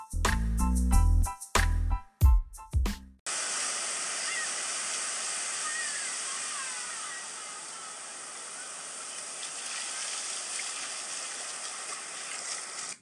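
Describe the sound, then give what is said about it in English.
Beach surf washes in a steady, broad rushing hiss as sea foam laps at the sand. A few seconds of music come first, then the wave noise continues at an even level. “Hear that? That is the sound of kids splashing the waves and sea foam lapping at the sand.”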